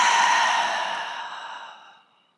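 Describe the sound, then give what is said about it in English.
A single long breath out through the mouth makes a soft, airy whoosh that starts strong and fades away over about two seconds. “exhale through the mouth, in, hold, exhale,”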